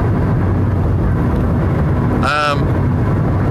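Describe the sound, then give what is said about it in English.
A car is driving, heard as a steady, loud rumble of engine and road noise that stays constant without pause throughout. “I'm driving away right now.”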